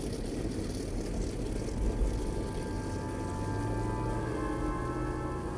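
Engines roar as a Pan American double-deck propeller airliner of 14,000 horsepower takes off in the evening. The sound is a dense, continuous roar with steady droning engine tones running through it, and no voices are heard.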